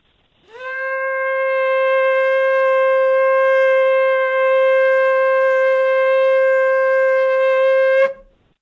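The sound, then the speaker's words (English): A small shofar sounds in one long, steady blast lasting about seven seconds. Its bright, brassy tone is rich in overtones, holds a level pitch throughout and ends abruptly with a short crack. “I'm going to blow this little shofar first.”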